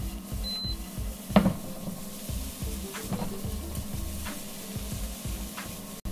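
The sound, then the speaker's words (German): Chopped onions sizzle as they are added to a pan of frying oats, a steady crackling hiss with a few brief knocks from stirring. “Und jetzt auch schon nur ein Moment, wo ich die Zwiebeln schon mal mit dazugebe. Die Zwiebeln, die in kleine Stücke sind, die kommen da jetzt schon mal mit rein.”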